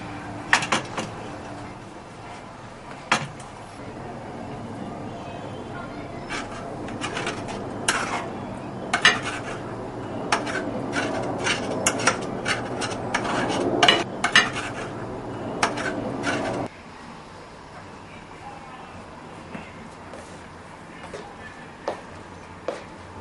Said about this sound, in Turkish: Evde adam dolaptan bir tabak alıp tavadaki yumurtayı ona boşalttı.